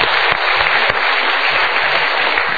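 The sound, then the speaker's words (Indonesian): An audience at a motivational seminar applauds with loud, steady clapping that holds an even level throughout, with no voices. “Kita berikan tepuk tangan lagi.”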